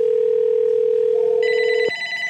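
A house telephone ringing with a steady electronic tone. Higher tones join partway through, and the main tone cuts off abruptly near the end.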